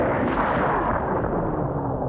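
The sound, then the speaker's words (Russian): Explosives detonated under an iron door in a cellar beneath a burned house give off a loud, deep roaring rumble. It stays heavy and sustained throughout, with a gritty crackling texture and no pause. “положил взрывчатку под железную дверь, зажег фитиль и вылез из колодца на землю. Раздался взрыв.”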